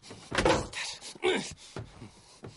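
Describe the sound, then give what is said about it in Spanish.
A car door is tried, with a few dull clunks and rattles as the handle and door are worked. The strongest knocks come early, then fainter taps follow. “Ahora intenta abrir la puerta del coche.”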